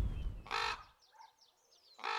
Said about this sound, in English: Now we've got a raven coming over our head.